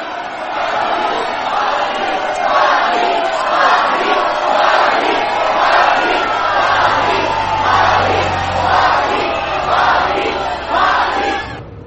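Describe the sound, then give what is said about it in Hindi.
Crowd noise from people gathered outside around someone leaving, with fans seeking autographs and media present: a loud, steady mass of voices carrying a rhythmic chant-like pulse throughout. “बाहर लोगों की भीड़।”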